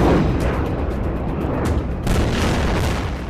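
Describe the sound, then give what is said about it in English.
Explosions from a barrage of incoming rockets during intense fighting: a continuous heavy roll of deep, rumbling booms, punctuated by a couple of sharper blasts in the second half, with no voices. “Intense fighting is still underway. We have just had a massive barrage of rockets coming in here.”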